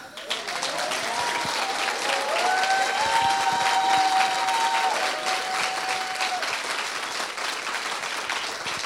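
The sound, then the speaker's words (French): Audience applause greets a guest at a welcoming gathering. Dense, loud clapping runs steadily for about nine seconds, with a few drawn-out tonal calls rising above the crowd noise. “Est-ce que nous pouvons acclamer Jésus”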